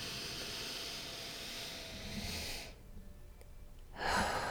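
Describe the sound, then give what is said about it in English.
A deep breath in and out, taken slowly as part of a guided relaxation: a long, soft, breathy rush, then a quiet pause, then another airy breath beginning at the end. “Let's take a nice deep breath together.”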